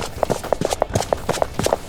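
Several people run toward an elevator through a foul-smelling place. Their footfalls come as rapid, evenly paced thuds that keep up a steady rhythm throughout, with many steps heard.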